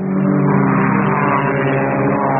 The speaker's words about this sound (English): Listen to the sound of Le Mans.